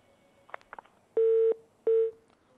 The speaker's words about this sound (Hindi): एक call drop हो गई।